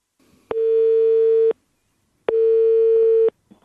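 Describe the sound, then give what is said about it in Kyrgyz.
Telephone ringback tone heard while placing a call: two loud, steady, mid-pitched beeps about a second long, separated by a pause of roughly the same length. “Татьянанын сөзүн угалы, биз ага телефон чалдык”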